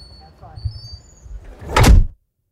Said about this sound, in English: Okay, so I'm rolling and you're going to shut the doors and leave me in here for a little while.